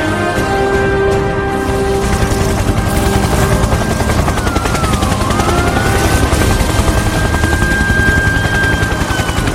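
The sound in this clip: An aircraft flies over a hill, producing a loud, continuous rhythmic beating with a steady whine running through the whole stretch.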